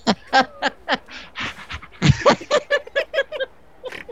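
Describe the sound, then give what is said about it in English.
A person imitates a dog's panting with many quick, rhythmic, breathy huffs in a steady pulse, fairly loud and without words. “It's hard to pant when you're laughing.”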